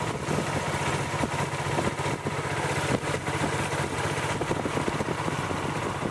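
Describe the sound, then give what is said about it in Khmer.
Motorboat engine running steadily during a trip to a flooded village: a loud, continuous throbbing drone with a fast regular pulse, holding an even level throughout with no voices. “លោកខឿនបានធ្វើដំណើរតាមទូកម៉ាស៊ីនទៅមើលភូមិចាស់របស់លោកដែលត្រូវបានទឹកលិច”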